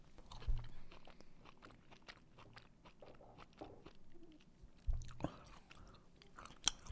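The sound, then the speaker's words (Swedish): Chewing olives, with soft, wet crunching and mouth sounds running quietly throughout and a few louder bites standing out near the start, around the middle and at the end. “Jag ska bara äta klart de här fyra oliverna innan jag ställer den.”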